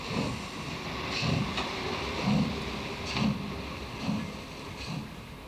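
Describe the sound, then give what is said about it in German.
A diesel locomotive hauling a special train on a rural German branch line gives a steady, full low rumble with regular heavy thumps about once a second, like wheels rolling over rail joints. “Doch längst sind sie von Dieselloks abgelöst worden. Heute allerdings fahren die D-Loks auch zum letzten Mal über diese Gleise”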